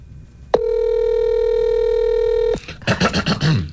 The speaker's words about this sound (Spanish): Ahí está marcando. Este sí se escucha no, cuando marca.